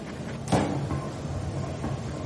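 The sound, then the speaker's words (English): A train door opening: one soft clunk stands out over steady, faint, low rumbling noise that continues afterward. “Train door opened as first cases approached.”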